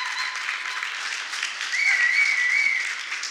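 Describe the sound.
An audience at a church youth gathering applauds to welcome a speaker on stage, a dense, steady clapping that swells midway with a high whistle over it.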